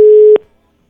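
A single telephone tone from an unanswered call: one loud, steady electronic beep lasting about a third of a second, cut off with a soft click and followed by silence.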